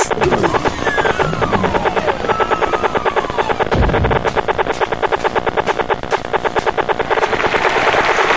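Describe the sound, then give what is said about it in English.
Rapid clicking of a Geiger counter reacting to radiation, a dense, steady run of many sharp ticks at an even, fast rhythm throughout. “And that noise you hear is the Geiger counter that, because of all the radiation, that was around.”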